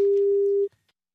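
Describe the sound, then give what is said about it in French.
Telephone ringback tone while placing a call: one sustained, steady mid-pitched beep lasting under a second, then an abrupt cutoff into near silence. “Allez, on essaie d'appeler Mireille Dumas pour lui souhaiter un bon anniversaire.”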